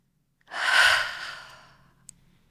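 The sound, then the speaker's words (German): A slow breath out during a breathing exercise, after the lungs are filled: one long, breathy rush that swells quickly, then thins and fades over about a second and a half, with no talk and a small click near the end. “Einatmen und dann nochmal die Lunge vollfüllen und ausatmen und zwar langsam und gern auch mit einem Ton oder so wirklich so.”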